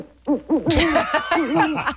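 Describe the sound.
An owl gives a rapid series of short, wavering hoots. Partway through, a burst of rough hissing noise joins them and continues under the hoots until the end.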